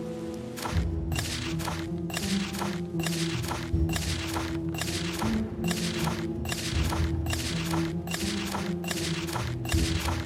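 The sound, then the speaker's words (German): A video game map is opened and closed quickly, over and over, making many rapid, evenly spaced swishing thumps that repeat in a brisk, regular rhythm over a steady low hum. “Also ich habe jetzt einfach aufgenommen, wie ich ganz schnell die Karte aufmache und schließe.”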